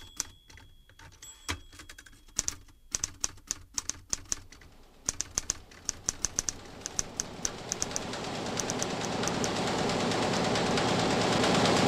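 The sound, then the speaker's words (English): A newspaper printing press runs at about 38,000 copies per hour. Sharp mechanical clacks and rattles come irregularly at first, then a rising roar builds steadily beneath quickening clatter. “At the moment, the press is running at 38,000 copies per hour”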